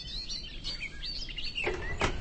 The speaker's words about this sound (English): Dans le sous-bois, la fauvette des jardins, dont la voix assez grave fait penser parfois au merle ou à la grille.